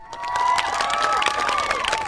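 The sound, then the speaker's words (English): Applause and cheering from a big crowd of interns and Senate staffers as Senator Clinton arrives at the Capitol: quick scattered claps mixed with high cheering voices, fairly loud and sustained throughout. “A big crowd of mostly interns and Senate staffers broke into applause as a broadly smiling Senator Clinton climbed out of a big black SUV and strode purposefully toward the Capitol”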